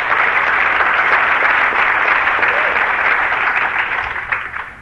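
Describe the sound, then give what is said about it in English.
Audience applause at a community event in Utah: dense, steady clapping that carries on at full strength, then thins out and fades in the final second. “so give yourself a hand”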